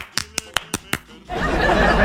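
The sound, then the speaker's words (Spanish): Applause on a Spanish-language show, opening with five sharp, evenly spaced claps. A sustained burst of denser clapping noise follows, with no speech. “Unos aplausos para ti.”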